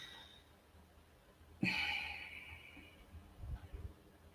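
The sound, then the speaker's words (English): A forceful breath from an energizing breathing exercise of Sanskrit origin bursts in suddenly mid-clip, then trails off over about a second, alone with no talk. “one of the most energizing breaths that is known. It actually comes from a Sanskrit name.”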